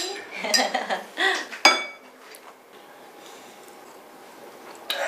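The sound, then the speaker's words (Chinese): Glasses clink in a toast at a family dinner. A sharp, ringing clink stands out among a clatter of dishes and cutlery, then fades into quieter background noise with faint clinks. “来，我先敬你们， 来，干杯！”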